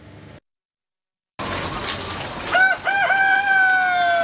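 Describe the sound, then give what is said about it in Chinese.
Caged chickens at a breeding farm in Shijiazhuang: a brief silence gives way to steady farm noise, then a few drawn-out, crowing-like calls ring out toward the end. “在石家庄的氮种鸡养殖场，一台巡检机器人已经上岗，它沿着鸡笼缓缓移动，每经过一笼鸡都要打量一番。”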